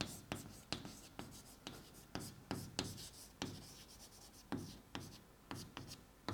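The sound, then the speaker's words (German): Handwriting during a lecture: many short, scratchy pen strokes come in quick, uneven bursts, each a sharp scrape that fades quickly, quiet and alone with no talk over them. “Klammer schreibe ich mal Intel Haswell.”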